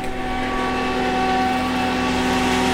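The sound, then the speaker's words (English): Steady drone of a truck-mounted water pump pushing potable water through a hose into a house's water tank at 100 gallons a minute: a continuous, even mechanical hum with engine-like tones throughout, no voices. “That's the sound of potable water pumping at 100 gallons a minute.”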